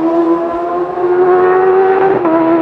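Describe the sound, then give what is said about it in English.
A Honda racing motorcycle at a TT road race screams at high revs in a loud, steady, sustained engine note, with a brief break in the tone near the end. “That is the sound of the Paget's Racing Honda of Ian Hutchinson, now a five times TT winner.”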